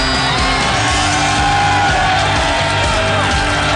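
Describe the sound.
A live audience cheers and whoops to welcome the hosts onto a stage, a loud, dense roar of yells, shouts and whoops that holds steady for the whole clip.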